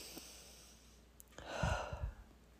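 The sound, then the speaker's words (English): A quiet deep breath, with a soft airy inhale followed by a brief exhale and low, breathy puffs, faint and alone. “Let me just take a breath here. Let's all take a breath together.”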